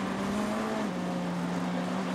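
Sports-car racing engines at the Petit Le Mans endurance race in the 2023 WeatherTech Championship, heading down the front straight: a continuous loud engine drone with a steady tone that drops slightly in pitch partway through.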